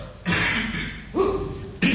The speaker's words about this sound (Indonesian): Itu mulai batuk-batuk.